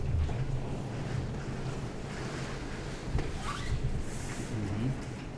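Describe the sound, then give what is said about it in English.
Stormy wind rushes steadily with a low rumbling undertone and occasional slightly stronger gusts, a dense, continuous noise at moderate level throughout. “You do like a good storm.”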